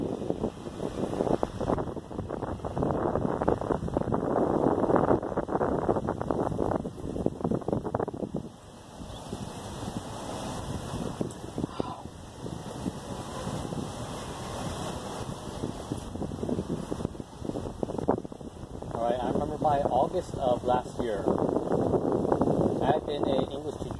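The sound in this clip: Wind blows hard across the microphone in gusty, rumbling buffets that stay loud for most of the stretch, briefly easing once before picking up again.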